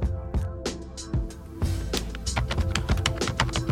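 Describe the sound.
Typing an email on a computer keyboard: many quick, irregular keystroke clicks in bursts, fairly loud and continuous.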